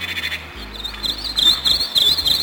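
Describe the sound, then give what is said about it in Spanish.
Recorded birdsong played back from an old cassette tape: high, quick chirps and warbling trills over a steady low hum and faint hiss, with no voices. “Ya los únicos pájaros que puedo oír cantar son los que grabé con mi viejo cassette. Escucha, pequeña.”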